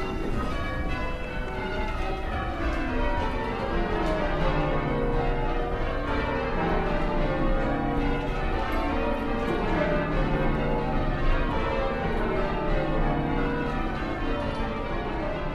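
Church bells ring in a sequence with the treble bell leading off, a dense, continuous wash of overlapping bell tones at a steady level with no voices.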